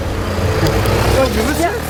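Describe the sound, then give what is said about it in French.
Cars pass through a red light in street traffic, making a dense, continuous rumble of engines and tyres, with voices mixed into the noise. “regarde-moi toutes ces bagnoles qui passent au rouge là.”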